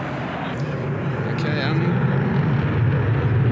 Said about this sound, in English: you can hear the drone starting in the background. We've got the typhoon going around in the background as competition.